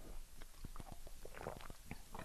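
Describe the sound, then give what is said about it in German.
Small wet mouth sounds of someone sipping water between sentences, a series of soft clicks and gulps at an uneven pace over a steady low hum. “Ich trinke immer zwischendurch ein bisschen Wasser, ne? Nicht, dass ihr euch wundert.”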